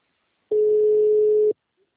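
A telephone ringing tone, heard while a call is placed, sounds once as a single steady mid-pitched beep lasting about a second, then falls silent.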